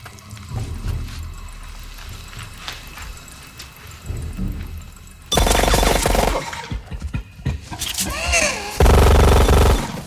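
Automated gun turrets firing in a film scene, guarding a jungle camp perimeter against aggressive gorillas: low rumbling and scattered thumps first, then loud sustained bursts of rapid automatic fire with a brief break.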